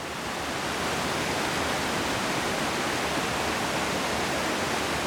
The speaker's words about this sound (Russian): Смотрите, горная река течет очень быстро и мощно.